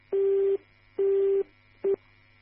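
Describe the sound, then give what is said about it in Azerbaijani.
A telephone busy tone follows a disconnected call: three steady, low-pitched beeps separated by even pauses, the last one cut short, over a faint low hum. “Telefonun əlaqəsi kəsildi.”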